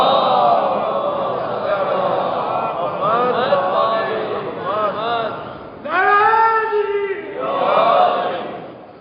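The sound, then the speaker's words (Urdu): A gathering chanting a salawat slogan, many voices joined in loud unison, swelling in several waves with a strong surge in the latter half. “آواز بلند، نعرہ سلوات،”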